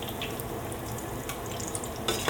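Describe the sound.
Falafel fry in a small pot of oil, giving a steady, hissing sizzle with fine crackles and a few sharper pops, fairly quiet and unbroken throughout.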